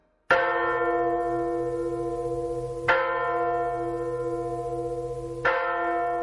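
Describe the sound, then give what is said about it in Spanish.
A church bell tolls three times at a slow, even pace, each deep clanging stroke ringing out into a long, humming decay before the next. “día de San Juan, las personas que son caritativas y generosas oyen el tañido de la campana que reposa en el fondo del lago.”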